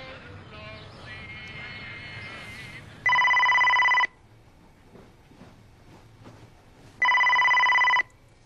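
A telephone rings unanswered, giving two loud electronic ring bursts of about a second each, several seconds apart, over a low, murmuring background.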